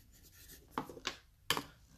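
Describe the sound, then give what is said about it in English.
Pen writing on paper: faint, scratchy strokes, with three quick, distinct scrapes standing out over a quiet background. “I'm going to write that down.”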